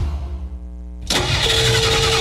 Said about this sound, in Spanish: Estoy aquí donde mi novia y no me arranca el carro